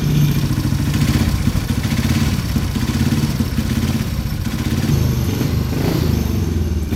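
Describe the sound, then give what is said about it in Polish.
A motorcycle engine fires and keeps running after being started on a stand by the wheel, near a race start line: loud, rough, steady mechanical running with clattery texture and no clear revving. “Właśnie tu już te motocykle to już fajnie odpalają, bo można na stojaku za koło, ale nie wiem, czy odpali. No. Bo tak normalnie to się... na popych. O, i ten odpalił.”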